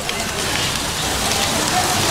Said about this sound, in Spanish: La lluvia seguía cayendo sobre la ciudad.